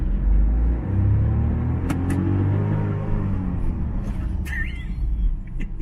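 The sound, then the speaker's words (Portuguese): A Mercedes bus engine with an iMotion transmission rumbles steadily, then sags in pitch and nearly dies during a gear change. A low road drone continues beneath, with a few short clicks and knocks. “você viu como morre? Na troca de marcha? Câmbio iMotion by Mercedes.”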